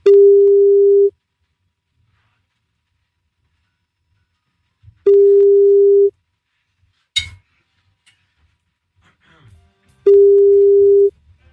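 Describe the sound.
A telephone call rings on the line with three steady, mid-pitched beeps of about a second each, spaced by roughly four seconds of near silence with faint clicks.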